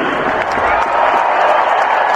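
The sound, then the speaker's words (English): Fans cheer and applaud as the first pitch is thrown out at a Boston Red Sox game, producing a continuous loud roar of crowd noise with scattered clapping. “Wow, big cheers.”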